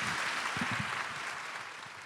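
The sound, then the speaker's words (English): Audience round of applause after a film screening, a sustained even wash of clapping that eases off slightly toward the end, with a brief voice underneath early on. “And let's give them a round of applause, you guys.”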